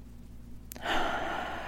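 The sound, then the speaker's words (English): A single deep inhale: a faint click, then a steady, breathy hiss of air drawn in that holds for about a second. “Take a deep breath in.”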